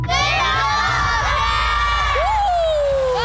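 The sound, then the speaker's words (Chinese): A crowd of children loudly shouts and cheers, calling out the name of a teacher they want as a song-and-dance partner at a live show, with dense, continuous yelling and high whoops cutting through. “大声喊出他的名字。”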